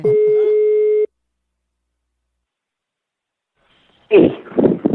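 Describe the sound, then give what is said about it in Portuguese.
Ringing tone of an outgoing phone call: one steady buzzing ring lasting about a second, then silence before a voice comes on the line. “Eu vou ligar agora pra Sandra, conhecida como Falsi!”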